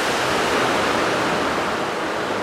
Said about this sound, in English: This is like a water monument, but you can walk out into the water.